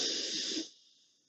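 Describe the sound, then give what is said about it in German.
A deep breath drawn in through the nose during a guided breathing exercise: a soft, airy hiss lasting about half a second, then fading away to near silence. “Tief einatmen, durch die Nase ein.”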